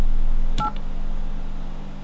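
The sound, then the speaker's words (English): Telephone keypad tones entering a name into a dial-by-name directory: a single short two-tone DTMF beep over a steady low hum, with no voices. “Enter the last name of the person you are calling, followed by the first name. Press pound when finished entering name.”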